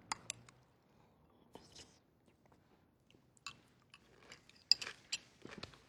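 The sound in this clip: Faint crunchy bites and chewing of chili topped with crunchy corn chips, with irregular soft crunches and wet mouth sounds spread across a quiet stretch.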